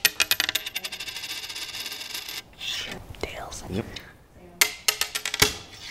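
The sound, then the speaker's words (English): Clinking coin sounds: a tossed coin landing in a quick run of sharp metallic taps at first, soft murmuring voices in the middle, then a few more crisp clinks near the end. “Roll the tape back to a moment right at the beginning of our coin flip.”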